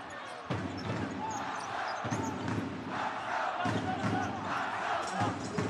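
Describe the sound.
A basketball is dribbled on the court during a game, with repeated sharp bounces over a dense, noisy crowd and voices.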